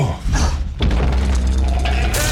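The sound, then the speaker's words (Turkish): Earthquake shaking: a loud, continuous low rumble with heavy thuds and rattling noise, sustained steadily for the whole stretch. “Yine sallanıyoruz. Deprem, kapı altına girin.”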